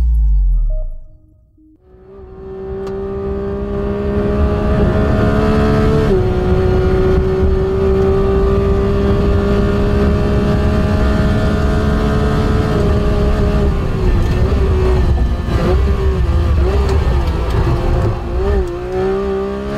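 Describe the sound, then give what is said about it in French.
A new Porsche 911 GT3 sports car engine screams at full throttle under a test driver, holding a loud, sustained high-revving wail with a few brief shifts in pitch after a quiet start. “Le son que vous venez d'entendre est celui de la nouvelle Porsche 911 GT3, alors que cette sportive est poussée à fond par le pilote d'essai Lars Kern”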